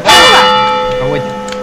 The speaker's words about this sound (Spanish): Ese es el último cuarto, ahora vienen las campanadas.